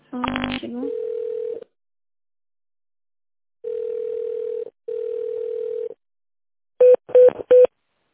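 Telephone tones sound while a call is transferred: a quick burst of dialing beeps, then three long, steady mid-pitched tones with pauses between them, and finally three short beeps in a row, with no talking.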